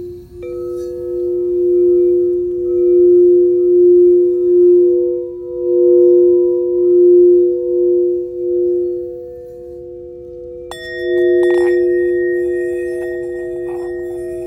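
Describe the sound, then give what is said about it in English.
Sound bowls resonating in a steady, loud, low hum with a slow pulsing waver, joined near the end by a fresh strike that adds brighter ringing overtones over the sustained tone. “What I want you to do is to just tap into these frequencies, these sound bowls. Allow the sound to resonate with your spirit.”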